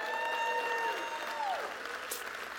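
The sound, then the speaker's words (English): A church audience applauds during a Heartland church service. The clapping is sustained and moderately loud, with a faint sustained tone running beneath it, and it eases off slightly toward the end. “Come on, give yourselves a hand. Like, yeah. And hey, I want to look into the camera and say a big hello to all those that are watching online today. Come on, Heartland family, help me welcome them to church.”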